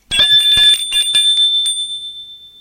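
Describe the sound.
A doorbell rings with a rapid run of bright, metallic strikes, then a single clear tone lingers and fades away on its own.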